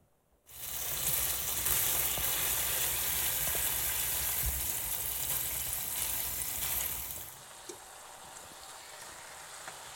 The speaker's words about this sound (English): so I got a little olive oil in there. And we'll see if that's enough. I think it will be. But I'm going to put some strips of bacon in here.